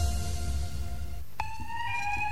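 An electronic alarm system sounds a steady, high-pitched, ringing tone that starts partway through and holds to the end, following a stretch of low, rumbling background noise.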